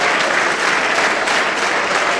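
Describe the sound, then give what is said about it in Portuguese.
Loud applause from a church audience during a Sunday service as people come forward to pray, a thick, steady wash of many hands clapping without a pause. “Vamos aplaudir muito enquanto estas pessoas vêm.”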